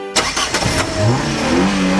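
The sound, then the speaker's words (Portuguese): A car engine cranks and catches with a sharp start, sputters briefly, then settles into loud revving whose tone climbs in pitch as the throttle opens. “Você sente a diferença quando acelera com o Shell V-Power Racing.”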